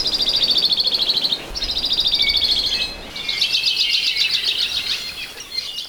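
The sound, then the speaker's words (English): Hawaii creeper, a small Hawaiian honeycreeper, giving its song and calls: high, fast trilled phrases, three in a row, the last longer and more varied, over a low steady background rumble. “Patrick Hart brings us the song of the modest Hawaii creeper. This little bird is hard to spot, but today we'll hear its call as well as its recently rediscovered Hawaiian name on the Manu Minute.”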